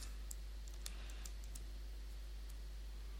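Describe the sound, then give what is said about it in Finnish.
Typing a name into a form on a computer keyboard: a few faint, light key clicks spaced irregularly over a steady low hum. “Ja päästään konsolinäkyviin ja sitten mä lähetän tämän, kunhan mä kirjoitan tänne nimen.”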